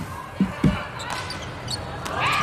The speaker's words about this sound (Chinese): 邓林宇来发球，14-18。